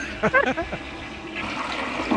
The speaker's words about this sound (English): Our goldfish is dead. We had to flush Goldie.